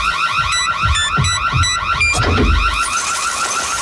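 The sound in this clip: Electronic alert signal for a radio contest, built from rapid warbling siren-like tones with repeating high beeps over a pulsing low thump, loud and continuous with no talking.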